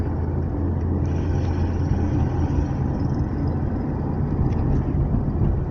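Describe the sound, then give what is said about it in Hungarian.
Cars passing by on a road make a continuous loud, low rumbling roar that stays even throughout, without distinct single passes standing out. “Jönnek az autók.”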